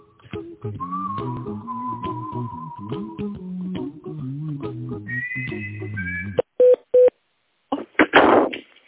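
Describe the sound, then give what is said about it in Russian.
Two short telephone keypad beeps as an extension number is dialed, following a stretch of electronic hold melody, then a brief rushing burst of noise. “Пожалуйста, дождитесь ответа оператора или наберите добавочный номер сотрудника.”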